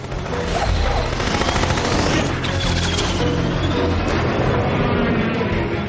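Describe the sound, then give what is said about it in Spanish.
Gunfire from a flying aircraft in an animated film, a loud, dense barrage of rapid shots that runs without a break, crackling and rumbling throughout. “Un minion en el asiento del copiloto dispara.”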